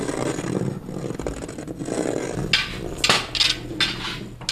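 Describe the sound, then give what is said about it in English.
Handmade canes, some jagged and some smooth, scraped along the floor, furniture and walls of a gallery. The grinding, rattling scrape is continuous, with several louder, bright swishing strokes in the second half. “And she's scraping them along the floor, along the furniture, along the walls of the gallery.”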